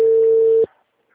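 A busy signal on a phone call that will not connect: one steady, mid-pitched electronic tone holds for about two-thirds of a second, then cuts off into silence.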